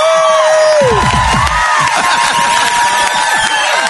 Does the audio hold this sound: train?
no